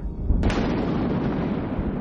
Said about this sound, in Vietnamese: Sau lời hiệu triệu, một tia sét đánh xuống.